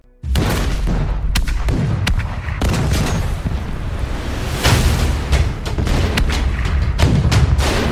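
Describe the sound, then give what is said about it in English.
A massive artillery barrage erupts along the 38th parallel at dawn at the start of the Korean War. Loud, continuous rumbling with many sharp blasts and booms overlaps throughout, with no pause. “a massive artillery barrage erupted along the 38th parallel.”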